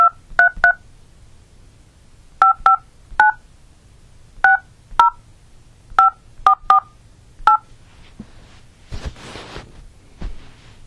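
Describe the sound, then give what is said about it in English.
Telephone keypad DTMF tones dialing a number on a prepaid calling service: many short, clear beeps in irregular groups against quiet, followed by a few brief noisy bursts. “Please enter the telephone number you wish to dial now, or press star 0 to reach out.”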